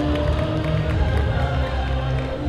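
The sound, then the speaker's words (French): An audience at a gaming event claps and cheers for a young girl who has won a PlayStation 3. The applause is dense and steady, mixed with crowd noise. “C'est une petite fille qui a gagné la PlayStation 3. Je vois pas mal de gamers qui sont déçus. Pas mal de joueurs. Mais ils applaudissent, ils sont pas mauvais joueurs.”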